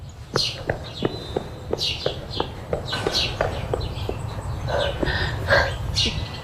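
Footsteps of someone running patter in a quick, steady rhythm of many light, sharp impacts.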